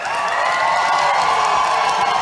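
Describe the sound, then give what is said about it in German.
Press people at the Berliner Volksbühne cheer and applaud as Depeche Mode arrive on stage. The crowd noise is loud and steady, a dense wash of whoops and clapping. “Sie werden von den anwesenden Presseleuten begeistert begrüßt.”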